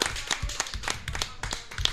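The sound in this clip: A small group applauds a game show winner with quick, uneven hand claps, a short, moderately loud burst.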